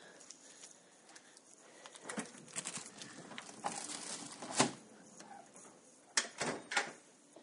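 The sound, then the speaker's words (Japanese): Rustling of bags while groceries are unpacked: faint crinkling and handling noise with a few sharper knocks and bumps scattered through it. “ガサガサ言ってすみません”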